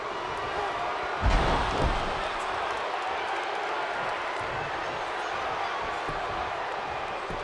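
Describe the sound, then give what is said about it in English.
A heavy thud as a wrestler is gorilla-press slammed onto the ring: one loud, low impact early on, with a shorter thump right after, over steady crowd noise that carries on to the end. “Gorilla press slam up to Cedric Alexander. Cedric must have been 8 feet in the air.”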